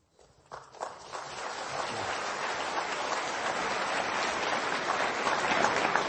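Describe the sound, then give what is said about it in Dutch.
Applause from an audience after a religious talk begins with a few scattered claps, then swells into dense, steady clapping that holds to the end. “Maar bedankt wel voor het applaus.”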